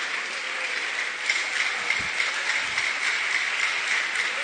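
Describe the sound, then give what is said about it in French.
Congregation applauding during a church service: dense, steady clapping that runs the whole time, with slightly louder bursts here and there. “On acclame très fort le Seigneur. Put your hands together for the Lord. You can do better than that.”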